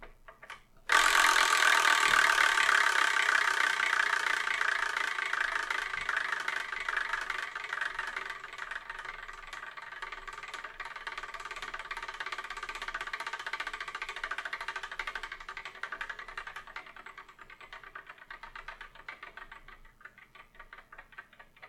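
A selection wheel being spun for a long time gives a rapid, continuous ticking rattle that starts abruptly, then slowly softens and dies away over about twenty seconds.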